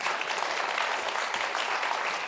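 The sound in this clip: Applause from an audience at a civic event in Los Angeles, a dense, steady clapping that stays even and fairly loud for the whole stretch without pause.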